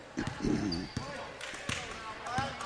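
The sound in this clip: A basketball is dribbled up the court in an ABS versus Waterloo game, with a few sharp, evenly spaced bounces under continuous commentary.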